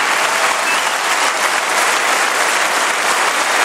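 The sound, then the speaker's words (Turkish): Dense applause fills the Hungarian parliament as the newly elected prime minister, Peter Magyar, takes his oath: a continuous, even roar of many clapping hands with no voices, holding at a steady level from start to end. “Parlamentoda yemin etti, hem meclis binasında hem de parlamento dışında töreni takip eden binlerce vatandaş tarafından alkışlandı.”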